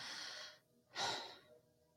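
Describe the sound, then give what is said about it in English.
Slow, airy breathing with no voiced sound, offered as wordlessly speaking God's name: two long, soft breaths separated by a short pause, faint and alone. “Every breath you take, you are speaking God's name. No vowels, no consonants.”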